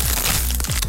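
Crisp, brittle crunching of Crunch tortilla chips, a Costa Rican snack made by Instamasa, being bitten. The crackle is brief, loud and continuous, with no voices.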